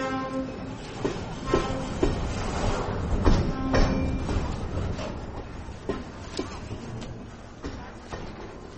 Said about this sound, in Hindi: रात का समय, रेलवे स्टेशन के एक प्लेटफॉर्म पर धोनी बेंच पर बैठा हुआ है।